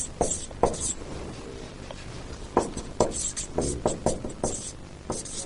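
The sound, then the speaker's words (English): Writing on a board, heard as faint, scratchy strokes that come in short irregular bursts, some sharper than others, with small pauses between them. “This is not in your notes, but I'm just going to write it up here.”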